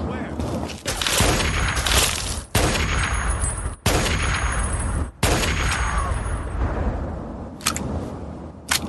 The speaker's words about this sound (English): Free fire with a sniper rifle. Took him out pretty nicely.